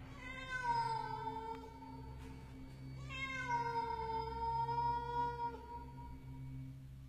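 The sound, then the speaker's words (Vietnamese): A stray cat gives two long, drawn-out meows, each starting high and sliding downward in pitch. They are loud and clear over a low, steady hum, with no talking. “Hóa ra là con mèo hoang.”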